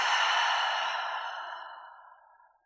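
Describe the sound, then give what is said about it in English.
A single long, deep exhale during a guided relaxation exercise: a soft, breathy rush of air that begins full and fades gradually over about two and a half seconds, with no talk over it. “Let's take one more deep breath all the way to the bottom of the sea or all the way deep into the earth. Breathe all the way down. Exhale, relax the body.”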